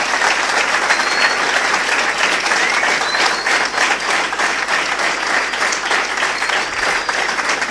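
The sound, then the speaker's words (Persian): An audience applauds as participants are called up, with many hands clapping in a loud, thick, continuous wash that barely changes in level throughout. “به افتخارش رو دست بزنیم.”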